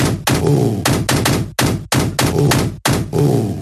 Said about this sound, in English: That is actually, I played the wrong sound. That is from the Pound the Thugs game that pops up after you finish a succession of levels.